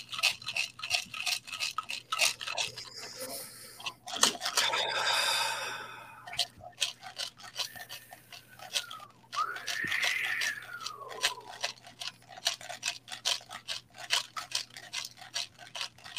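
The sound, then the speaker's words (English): A ceremonial rattle is shaken in a steady, fast rhythm for the whole stretch, making a dry, crisp scratching chatter. Breathy sighs and soft vocal sounds rise over it in the middle. “Allow the sound of the rattle to bring you back home to you.”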